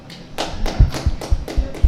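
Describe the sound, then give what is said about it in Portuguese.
A few people clap as a small audience votes by show of applause. The short run of roughly evenly spaced claps has a sharp attack and is moderately loud. “Ah, só ouvi duas pessoas a aplaudir, isto é muito estranho.”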